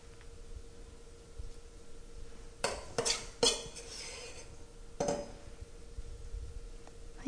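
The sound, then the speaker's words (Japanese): Spoon clinks and taps against a frying pan as quartered portions of dough are scooped and dropped in, a few short metallic knocks over a low steady hiss, with no talk. “4等分にしたものを一つずつすくってフライパンの中に落としていきます。”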